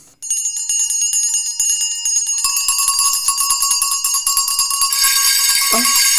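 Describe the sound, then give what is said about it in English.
Many small bells ring at once throughout a house in a dense, bright jangle of rapid repeated strikes. The sound grows fuller and louder as more bells join in, with no voices. “Every bell in the house must be ringing.”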